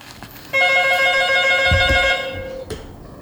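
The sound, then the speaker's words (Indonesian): A telephone bell rings for an incoming caller: a single bright, trilling ring burst of about a second and a half that then fades out, with no voices. “Kita angkat dulu penelpon kita nih”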